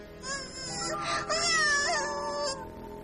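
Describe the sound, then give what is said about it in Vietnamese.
An infant cries without stopping, the king's baby son in pain from an infected, pus-filled finger: a continuous wavering wail with a shifting pitch that lasts the whole moment. “đứa con của vua A Xà Thế chỉ vì ngón tay bị làm mủ đau tới nỗi khóc không ngừng.”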